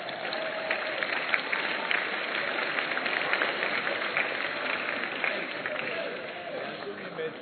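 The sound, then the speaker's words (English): Congregation clapping during a church sermon, dense steady clapping throughout with a voice talking over it. “If nobody is clapping, I'm expecting you to clap.”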